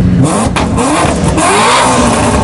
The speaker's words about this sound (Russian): оснащен турбиной и нагнетателем механическим, поэтому мощность мотора увеличена до 700 лошадиных сил. Послушаем же. Музыка для глаз. Это Lamborghini.